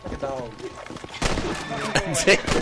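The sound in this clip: Sharp bursts of gunfire in a video game as a player shoots a horse. The shots cut through talking voices and other game sounds.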